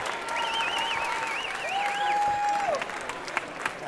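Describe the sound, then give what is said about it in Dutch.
A crowd of protesters at a university occupation cheers and applauds as a Starbucks bin is carried off, a dense, steady roar of clapping and shouting that holds at an even level throughout. “stijgt hier een enorm gejuich op”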